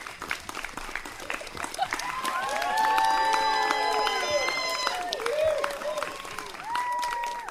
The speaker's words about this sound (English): The cast gets a standing ovation.